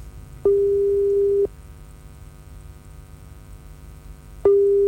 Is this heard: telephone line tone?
yes